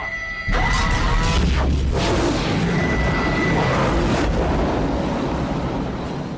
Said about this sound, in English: just in time to see the last chevron engage and the Stargate activate. Chevron 7